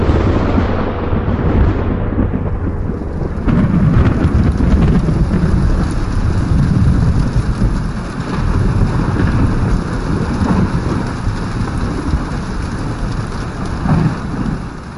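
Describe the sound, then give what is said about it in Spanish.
Heavy rain pours in a dense, steady hiss during a night thunderstorm, with low thunder rumbling beneath it; loud and continuous throughout, with no voices. “Aquella noche hubo una tormenta”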